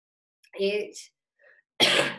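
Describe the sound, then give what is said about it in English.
A dry cough bursts out once, sharp and noisy, near the end, after a short voiced throat sound and a brief pause. “I have like a really dry, stupid cough right now, so please excuse that.”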